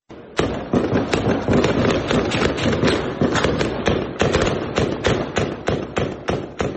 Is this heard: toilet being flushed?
no